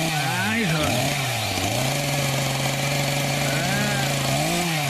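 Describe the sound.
A chainsaw cutting down a pine tree, its engine droning loudly and revving up and down in pitch while people talk over it.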